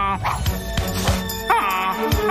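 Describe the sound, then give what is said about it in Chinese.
A voice imitates the cry of a wild goose in trouble, giving a few wavering, strained honks that rise and fall over busy background sounds. “看我用拿手绝活，模仿野鹅遇到麻烦时的叫声，把狗狗们引开。”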